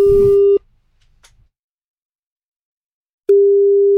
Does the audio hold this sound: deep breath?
no